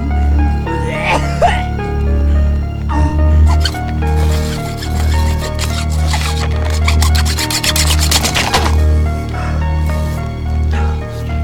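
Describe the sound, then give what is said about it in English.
A saw rasps through a body in the woods with steady rubbing, grating strokes that thicken into a quicker run of harsh strokes midway, over a sustained tonal background. “David frantically saws the body”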